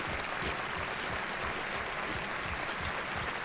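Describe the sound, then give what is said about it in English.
Applause from one person clapping close into a microphone at an awards-style event, a dense, steady run of loud, crisp claps that fills the whole stretch with no pause. “Someone applauding on... oh, yeah, he's applauding. He's applauding on the mic.”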